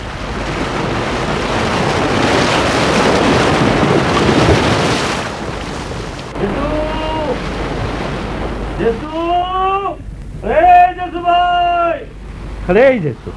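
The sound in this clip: Surf washes against the seashore on a moonlit night, a loud, rushing roar for about six seconds, then quieter under voices that speak over it.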